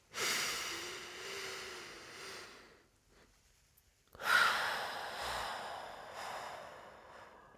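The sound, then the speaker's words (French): Slow, deep breathing during a relaxation exercise for sleep: two long, soft, airy breath sounds, each lasting a few seconds, separated by a brief quiet pause, with no talking. “Et maintenant, j'inspire et je compte jusqu'à 4.”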